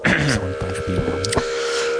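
Spring reverb feedback forms a sustained electronic drone with a steady high tone and shifting low harmonic tones, broken by a brief sharp crack before it settles into a constant hum.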